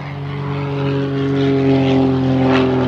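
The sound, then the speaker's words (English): A propeller airplane on its maiden flight with a test pilot at the controls drones with a steady, low, harmonic engine hum that swells gradually louder, with no voices. “Michael sat out the maiden flight. He hired a test pilot, someone highly trained to deal with emergency situations.”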